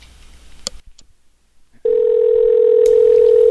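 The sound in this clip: A telephone dial tone sounds while calling a classic rock radio station. A few clicks and quiet handling noise come first, then a loud, steady, unbroken tone holds to the end.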